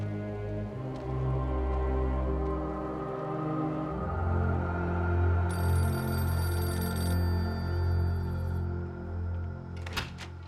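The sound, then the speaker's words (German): A telephone rings for a call from a priest, a rapid high trilling ring in the middle stretch that then fades, over a steady low droning background. “Das war ein Anruf von Pater Blackwood.”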